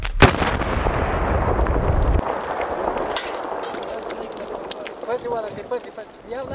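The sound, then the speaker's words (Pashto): A controlled detonation of collected improvised landmines made from yellow containers, set off by Afghan soldiers: a sharp blast opens into a loud rumbling roar that slowly fades, with faint voices toward the end. “دغه ژړې ډبې افغان پوځیانو دغلته زموږ د مخه راټولې کړي او وروسته یې ورته چاودنه ورکړه.”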